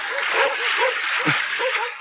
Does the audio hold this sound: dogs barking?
yes